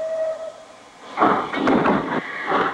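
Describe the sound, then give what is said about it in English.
A train starts to move in a dramatized scene set in Russia: a quiet tone at the start gives way to loud, surging bursts of rumble and clank that swell and fade several times. “As the train starts to move, Lara jumps, then lets her gaze fall to the floor.”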